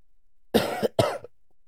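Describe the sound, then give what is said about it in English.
Coughing from a person who is sick: two loud, rough bursts in quick succession, heard alone without talk. “I'm going to cough again.”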